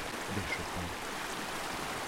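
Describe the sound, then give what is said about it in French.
A river near its source, fed by small streams below cliffs, flows with a steady, faint rushing and trickling wash of water and no clear breaks. “C'est le chant de la rivière.”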